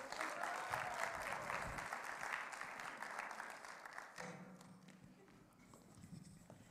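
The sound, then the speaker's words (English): Audience applause for a couple invited up on stage, fairly faint, dense clapping that thins out and fades over the last couple of seconds. “Why don't you give them a round of applause again?”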